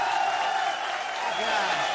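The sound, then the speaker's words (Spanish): Applause welcoming a norteño music performer onto the stage, a loud, continuous wash of clapping with a voice audible over it. “Vamos a recibir con un aplauso, pero bien machina”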